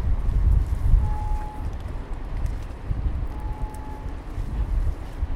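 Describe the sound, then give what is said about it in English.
Wind buffeting outdoors, heard as a continuous low rumble that rises and falls in gusts, steady and fairly loud throughout with no talking. “Hang on, I'll wait for the wind to stop.”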